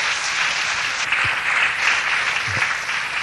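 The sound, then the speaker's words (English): Church audience applause welcoming a pastor to the microphone, a dense, even wash of clapping that stays steady and fairly loud throughout. “Come on, put your hands together to welcome the man of God.”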